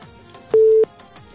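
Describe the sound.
Telephone busy tone on a phone-in line after a dropped call: one steady, mid-pitched beep lasting a fraction of a second, standing clearly above faint background hiss.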